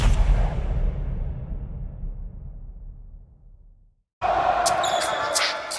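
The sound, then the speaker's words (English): A basketball is dribbled during an NBA Finals game, with repeated bounces under a steady roar of arena crowd noise. The noise fades briefly to near silence, then loud crowd sound returns. “Step back off the dribble three.”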